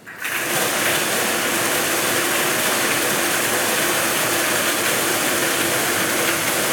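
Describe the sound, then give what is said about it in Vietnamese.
A lottery drawing machine spins for the first draw of a Kien Giang state lottery, giving a loud, steady whirring rush with a rattling texture that holds evenly from start to end. “Giải này được quay 5 lòng cầu và quay 7 lần. Sau đây là lần quay thứ nhất. Mời 5 em quay số.”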